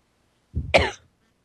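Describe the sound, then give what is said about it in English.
A single sharp cough from a speaker, one short, rough burst standing alone in silence. “Sorry about that. Had to have a cough break.”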